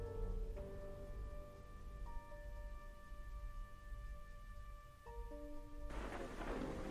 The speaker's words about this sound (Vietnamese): Tiếng sấm đì đùng như muốn xé nát cả không gian.